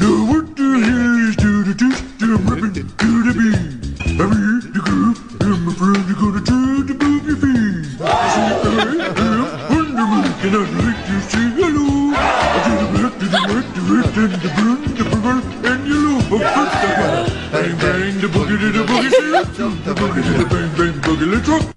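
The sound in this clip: A puppet chef character's exaggerated mock-Swedish gibberish voice raps over a bouncy, funky backing track. The voice bobs in pitch through the verses and stays loud and continuous throughout.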